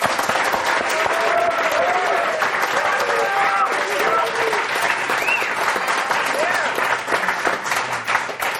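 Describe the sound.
An audience applauds as a tech company CEO is welcomed on stage. The clapping is loud, dense and sustained, then eases slightly toward the end.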